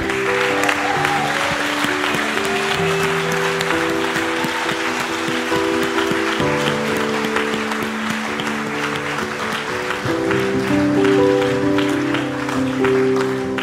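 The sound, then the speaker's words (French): Applause from an audience at a religious gathering, a loud, dense patter that holds steady for the whole stretch, with sustained tones beneath it. “Est-ce qu'on peut acclamer Dieu”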